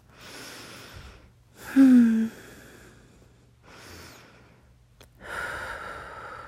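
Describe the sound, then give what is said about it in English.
Soft, deep breathing in and out, with a few slow, airy breaths separated by quiet pauses; the second breath is the loudest. “Just take a deep breath. Breathe in and out.”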